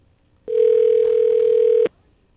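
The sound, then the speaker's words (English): Ringing on a temperamental phone line after a number is pushed in: one steady, loud, low buzzing tone held for over a second, starting and stopping abruptly against quiet background. “Okay, let's see if we got enough numbers pushed in here. Sometimes this phone is temper. It worked. It's ringing.”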